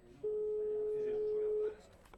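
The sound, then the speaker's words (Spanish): A telephone call is placed, with one long, steady electronic ring tone lasting about a second and a half over low background noise. “Ya voy a llamarla a ella.”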